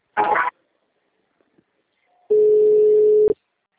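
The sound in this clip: A steady telephone tone plays while a call is being transferred, one unbroken beep of about a second, preceded by a short burst of noise.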